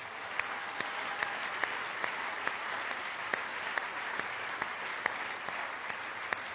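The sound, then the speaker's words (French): Sustained applause from a church gathering welcoming its guest, a dense, even bed of clapping with sharper single claps standing out at regular intervals. “je voudrais que nous puissions en tout cas, vous accueillir en vous acclamant.”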